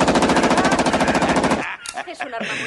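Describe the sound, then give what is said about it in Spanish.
Rapid automatic gunfire from a Tiger O gun made in Austria: a long, steady burst of many fast, evenly spaced shots lasting about a second and a half, then stopping abruptly, followed by softer scattered sounds. “Me encanta mi Tech 9. Voy a tirarla adelante. Y han puesto un gran... Échale un vistazo a esta. Eso que ves ahí es una Tiger O. Es una hija de puta muy peligrosa. Escucha. Es un arma”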